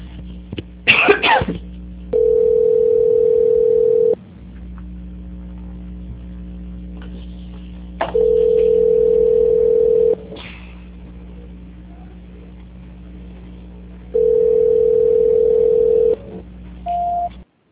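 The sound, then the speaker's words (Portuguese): Telephone tones sound during a call transfer: three long, steady, mid-pitched tones of about two seconds each, evenly spaced, over a low constant hum, followed by one short tone at the end. “A ligação ficará muda por alguns instantes. Eu peço, por favor, que não desligue. Desejo ao senhor uma ótima tarde. Só um minuto, por favor, que eu vou transferir a sua ligação. Transferência.”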